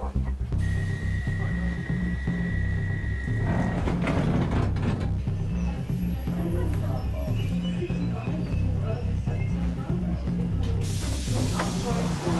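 London Underground train doors close on a crowded carriage arriving near Westminster. A steady high warning tone sounds for a few seconds, then continuous mechanical rumble and clatter run on without pause.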